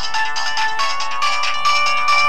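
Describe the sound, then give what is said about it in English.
A flip cell phone's ringtone plays loud, bright electronic melodic tones that ring steadily without a break. “Right, now my cell phone's ringing.”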